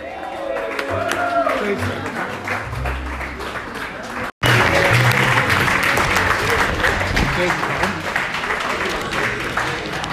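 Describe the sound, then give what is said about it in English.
Loud, steady audience applause and cheering at a stand-up comedy show greet a performer, dense clapping filling the whole stretch with only a momentary cut in the middle. “Make it real loud for Quincy Weekly.”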